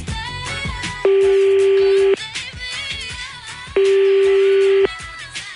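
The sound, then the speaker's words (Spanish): A telephone is dialed to call a contest winner. Two long, steady electronic call tones, each about a second long, sound clearly over lively background music. “Conéctenlos a la batería, que tengan señal. A ver, vamos a empezar a marcar.”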